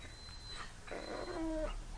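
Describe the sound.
A small dog whimpers in one brief, faint, high whine that rises out of quiet background hiss.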